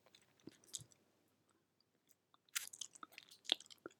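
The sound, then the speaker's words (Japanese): Wet mouth sounds of a tongue licking an ear: faint smacks and clicks in two clusters separated by a quiet pause, with no talking. “こうしてるとなんだか先生の耳私の舌で犯してるみたい。”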